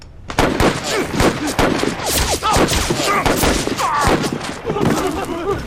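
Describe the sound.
Battle gunfire crackles in a dense, continuous barrage of rapid loud shots, with shouting voices mixed in.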